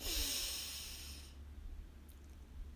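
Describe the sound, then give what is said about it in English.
A deep breath heard as a faint, airy rush of breathing that lasts about a second before it fades into quiet, with no talk. “Deep breath in, breathe in, and exhale”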